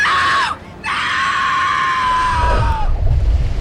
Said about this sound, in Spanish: De pronto, un grito de muerte centelleó desde el agua salada.